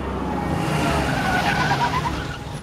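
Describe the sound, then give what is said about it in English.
A Porsche pulling up to a church, its engine and tyre noise forming a loud, constant roar that swells slightly in the middle and eases off at the end. “Ned's Porsche pulls up to the church.”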